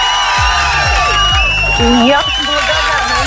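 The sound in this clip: Applause and cheering used as a sound effect for a prize winner receiving a wireless speaker: a lively crowd with whoops and bright whistling tones over clapping, loud and sustained.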